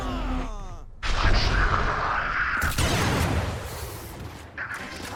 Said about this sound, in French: Grenade!